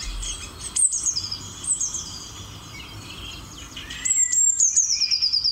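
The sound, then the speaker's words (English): Blue tit song: thin, very high-pitched chirping phrases that slide downward, repeated a few times, with the last phrase a longer shimmering trill. “This is the sound of a blue tit, a small bird that is really colourful.”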